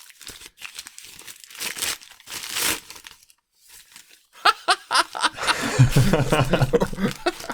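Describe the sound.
Gift wrapping paper crinkling and tearing as a lovingly wrapped Christmas present is opened, with many crisp rustles that grow busier and louder in the second half, mixed with soft chuckles.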